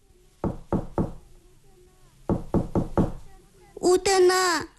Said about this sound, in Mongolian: Тэгээд санд мэнд үүдийн тогшоод